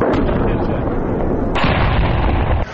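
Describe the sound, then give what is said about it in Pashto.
A D-30 artillery cannon fires from a police training centre on the edge of Lashkar Gah, producing a loud, heavy blast with a long rumbling roar. “دا هغه ډي سي توپ دی چې تازه حکومتي مسؤلینو د لشکرګاه ښار اړوند د پیرسابز کلا او باباجي د امنیتي کمربند ساتلو لپاره د پولیسو د تعلیمي مرکز په وڅنډه کې ځای پځای کړی دی”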